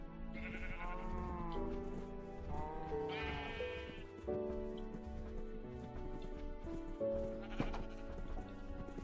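Sheep bleating while being herded, with a few loud, wavering, quavering bleats rising over a steady background of more bleating.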